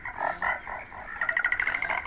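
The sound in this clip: Calls of a cunauaru, the Amazon milk frog: a few slower, throaty croaks, then a quicker run of rapid pulsing notes.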